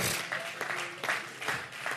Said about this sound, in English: If you believe it, clap your hands to the Lord.